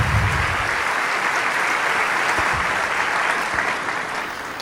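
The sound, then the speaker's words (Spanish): Audience applause at a church service, a dense, steady wash of many hands clapping that holds at a strong level for several seconds and eases slightly near the end, with no voices over it. “¿Cuántos le damos un aplauso al Rey de Reyes?”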